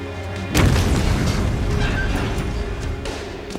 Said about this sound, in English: Pipe bomb! Get out! Get out! Call 911!